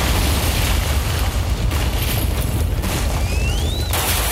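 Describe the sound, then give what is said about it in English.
Cartoon explosion sound effect blowing up a theme tune: a sustained, loud roaring rumble that holds steady for several seconds, with a thin rising whistle sliding upward near the end. “Oh no, the theme tune's exploded.”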